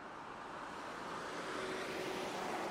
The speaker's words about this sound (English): That taxi is on the wrong side of the road.